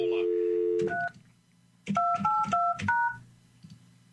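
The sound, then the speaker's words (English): A telephone keypad is dialed. A steady low tone is followed by a single beep, a pause, then a quick run of a few short dual-pitched key tones. People talk softly underneath. “Hold on, I was dialing. I'm, like, in the middle of something.”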